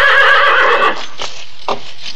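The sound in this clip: A horse whinnies loudly in one long, quavering neigh lasting nearly a second, followed by a couple of faint knocks, with no voices.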